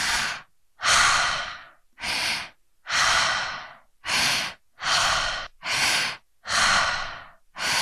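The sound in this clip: Rhythmic mouth breathing exercise with active inhales and relaxed, passive exhales in a continuous cycle without pauses. About nine loud, airy breath bursts follow one another in a steady pattern, with no talk.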